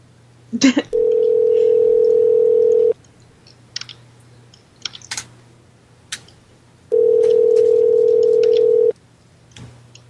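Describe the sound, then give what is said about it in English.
Ringback tone of an outgoing phone call: two long, steady, even tones of about two seconds each, spaced roughly four seconds apart, with faint clicks and a low hum in the gaps. “Okay, it's ringing.”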